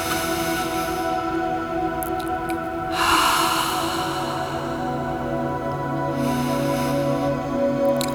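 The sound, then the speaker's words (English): A deep breath is drawn in and let out during a guided breathing exercise: a long airy inhale, then a later exhale. Both are soft and heard over a steady, quiet musical drone. “All right, let's take a deep breath.”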